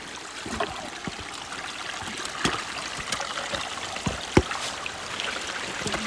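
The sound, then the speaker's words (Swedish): Water trickling through a small spring stream in a wet meadow, a steady soft babble broken by faint, irregular splashes and gurgles. “Det gäller att sätta fötterna rätt så man inte halkar ner i det blöta. Det känns nästan som en liten vårbäck det här.”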